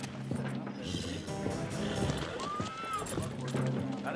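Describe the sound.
Horse hooves clip-clop steadily as a well-dressed rider comes up to a hotel with a boardwalk and dismounts, a continuous run of hoofbeats lasting several seconds.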